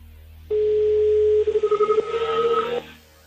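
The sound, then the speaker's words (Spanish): Telephone dial tone while a call is being dialed: a single steady, mid-pitched tone held for about two seconds, pulsing briefly partway through before it cuts off. “Estoy marcando, ¿eh? Vale. A ver si da tono. Ahí está.”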